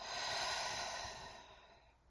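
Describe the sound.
A slow exhale during a guided breathing exercise: a soft, airy rush of breath that starts full and gradually fades away over about two seconds.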